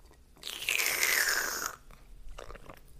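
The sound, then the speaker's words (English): A person drinking coffee from a cup: one loud, airy slurping sip lasting about a second, followed by fainter mouth and swallowing sounds. “drinking coffee, ASMR”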